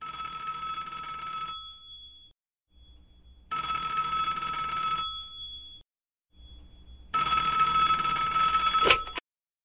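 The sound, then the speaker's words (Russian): A telephone bell rings in three bright, rattling bursts of about two seconds each, separated by short quieter pauses, with no voices. “но только я лег, звонок.”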